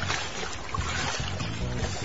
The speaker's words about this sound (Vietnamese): Tư Cầu vừa nhổ cây xào, vừa đưa chân tống xuồng và chống xào cho xuồng đi vèo vèo trên mặt nước